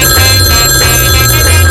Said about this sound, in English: And that is the sound of the basement studio line.